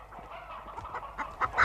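Chickens clucking, stolen poultry hidden under a shabby hood: a run of many short, quiet clucks and honk-like calls that grow louder and busier toward the end.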